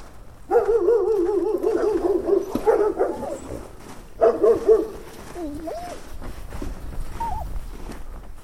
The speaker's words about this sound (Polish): To jest mój pies. Efekt bardzo przeze mnie często wykorzystywany.